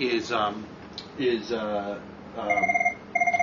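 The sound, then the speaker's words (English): A telephone rings in two bursts of rapid, warbling electronic pulses, high and bright, following a stretch of a man talking. “I can't turn that phone off.”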